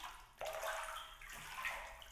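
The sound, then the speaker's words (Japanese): Soft, wet lathering as hair is washed with plenty of foam, starting abruptly after a brief quiet moment and continuing as faint, slushy scrubbing with a watery texture. “もてなしは、お兄さんの髪の毛を洗わせていただきます。ここは、泡をいっぱい使って、わしゃわしゃーってするんです。”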